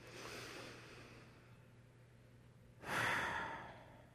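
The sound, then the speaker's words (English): Slow, deliberate human breathing: a long, soft airy breath that fades out, a short pause, then a louder, sharper breath. “Just breathe right now with me. Just breathe.”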